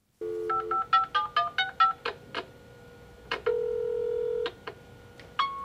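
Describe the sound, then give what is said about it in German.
Telephone answering machine tones: a rapid run of short electronic beeps, then one long steady tone and a few more clipped beeps, clear and fairly loud with no voices. “Sie hören eine Ansage auf Ihrem Anrufbeantworter.”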